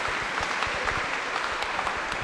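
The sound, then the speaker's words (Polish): Audience applause for a couple at a live event: steady, dense clapping of many hands at an even level throughout, with no pause. “Wielkie brawa”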